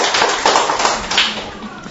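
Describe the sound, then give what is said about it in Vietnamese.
Audience applause at a religious gathering with hymn singing, a dense, continuous patter of many hands clapping that stays steady and loud across the whole moment. “Hay, hay thì cho một tràng pháo tay.”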